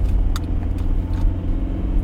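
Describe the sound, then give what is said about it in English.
Steady low road rumble of a car driving home from work, a continuous engine and tire drone dominating the low end, with a few faint ticks above and no voices. “So we're driving, baby. We're driving. We're driving home.”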